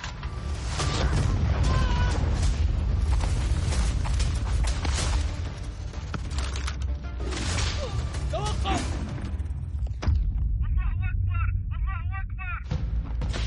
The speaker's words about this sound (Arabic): قنبلة.